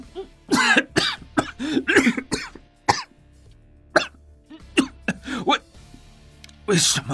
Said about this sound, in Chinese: 看着他咳嗽不止